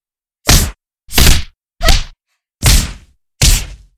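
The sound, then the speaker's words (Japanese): Five punches land on an unguarded person, each a loud, sharp thwack followed by silence, spaced fairly evenly. “こんな風に、ノーガードでパンチを受けることになっちゃいますから。”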